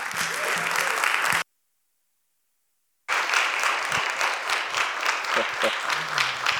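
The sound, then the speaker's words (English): A church audience applauds: dense, sustained clapping is broken by a short stretch of complete silence, then continues steadily. “if you could give him a hand”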